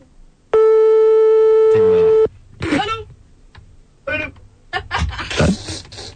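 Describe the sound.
A single long, steady ringing tone from a telephone line during a call, holding for under two seconds, followed by a few brief, irregular sounds.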